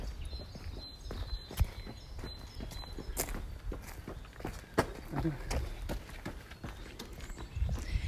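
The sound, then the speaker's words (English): Footsteps of a runner approaching from behind past a park bench: many quick, regular, soft thuds of the running steps, heard under ongoing talk. “Hold on, we've got a runner coming up from behind.”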